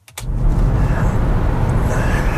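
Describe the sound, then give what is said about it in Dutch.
An Opel Corsa-e electric car driving with no engine noise. A brief click comes first, then a loud, steady rumble of road and wind noise that is heavy in the lows, with no motor tone. “Het zijn eigenlijk al saaie rijimpressies dit, hè? Geen motorgeluid, ik hoef niet te schakelen, ik kan niks geks doen. Hij doet het gewoon. Dan geef ik gas, of ik geef stroom eigenlijk.”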